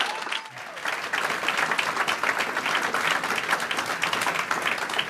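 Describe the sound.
Audience applause welcomes a debate moderator and two Los Angeles mayoral candidates. It is a loud, dense and steady clapping that swells after a brief quieter start and keeps going throughout.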